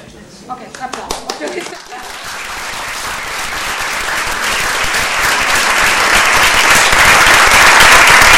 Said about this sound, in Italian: Ok, applauso.